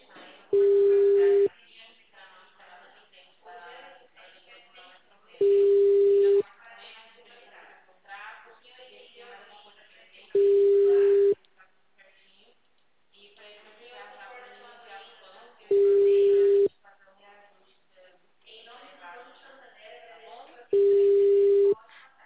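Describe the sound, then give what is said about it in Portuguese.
A telephone line rings without being answered, its low tone sounding five times, each about a second long, at even intervals. People talk in between the tones. “O Consignet não atende. Deve estar abarrotado de gente ligando lá.”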